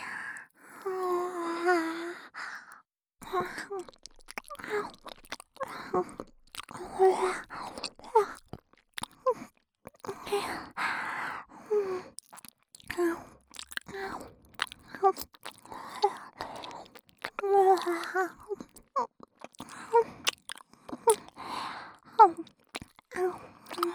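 Chewing and biting as someone eats, with a dense run of soft, irregular wet smacks and crunchy clicks, mixed with occasional low murmured groans and breaths.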